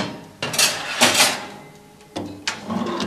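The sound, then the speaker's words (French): A tray of saffron pistils slides into an oven preheated to 50 degrees, making a few bright metallic clatters and scrapes separated by short pauses. No one talks. “Et on va le mettre dans le four.”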